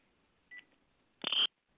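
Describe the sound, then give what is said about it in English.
A phone goes off during a spoken talk with two brief electronic tones: a short soft beep, then a louder, harsher buzzing burst that cuts off abruptly. “Uh-oh. I got a phone that's going out here. That would not be good.”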